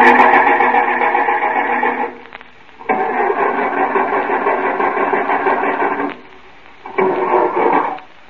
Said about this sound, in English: Got one of them push-button starters. Yeah, that's an improvement over the crank. Yep. I'll just turn it over a few times so you can see.